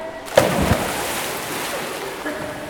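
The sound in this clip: Splash of people jumping together into water: a sharp impact splash, then a steady rushing, bubbling wash that continues to the end at a moderate level.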